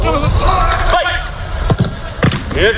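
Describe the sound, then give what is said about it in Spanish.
Real Madrid's football training session under Mourinho at Valdebebas: several thumps of a ball and quick footsteps sound under loud shouted encouragement from voices on the pitch. “como la radio es sonido, este es el sonido de Mourinho entrenando hoy en Valdebebas.”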